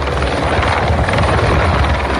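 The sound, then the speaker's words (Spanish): Helicopters fighting a wildfire near Lozoyuela in the Madrid region, a loud, steady rotor roar with a low throbbing beat, continuous throughout without talk. “a la que se han incorporado hace unos minutos los helicópteros, los medios aéreos.”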